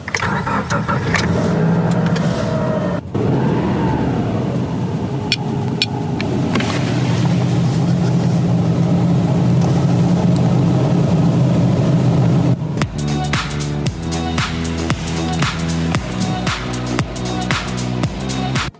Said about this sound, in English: Well, that was me cruising in a CNG-powered vehicle. Take it from me, a ride in one of these vehicles is not different from the petrol-powered vehicle.